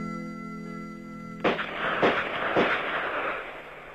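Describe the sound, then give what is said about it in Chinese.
Gunshots at a police shooting range during live-fire practice: three sharp, crisp cracks about half a second apart, each with a lingering tail, following a steady tonal hum. “803就带领他的部下刑警队员开赴靶场实弹练习。清脆的枪声划破了万里晴空。”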